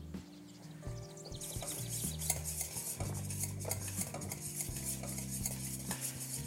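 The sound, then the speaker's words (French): A whisk stirring caramel as it heats and melts, making a steady, brisk swishing and scraping against the pan that continues without pause throughout. “Et au fur et à mesure, en fouettant, en chauffant, ça va faire fondre ce caramel au bout du fouet. Tout ça, ça va s'incorporer au reste.”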